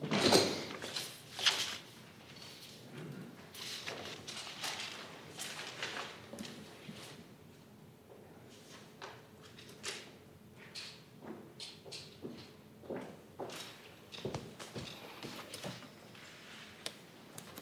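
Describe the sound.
People shifting and changing seats at a government press conference: faint, scattered thumps, knocks, clicks and rustles spread irregularly over many seconds, with no voices.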